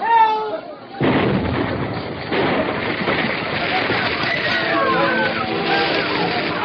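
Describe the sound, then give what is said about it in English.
A munitions factory explosion as a drama sound effect: after a brief voice, a sudden loud blast bursts in, followed by a sustained roaring, crackling rumble of fire, with voices in the mix. “The explosion was followed by fire at the munitions factory, where every precaution had been taken to avoid such”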